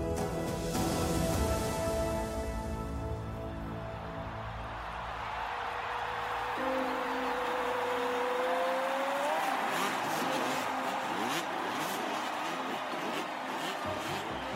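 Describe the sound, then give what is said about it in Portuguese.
Motocross motorcycle engine accelerating hard on a practice track toward a triple jump, the bike not set up for such an intense course: a loud, steady engine roar throughout, with a rising whine in the middle. “Na pista de treino, acelerou para um salto triplo como o que havia no evento principal. Só que a sua moto não estava ajustada para uma pista tão intensa.”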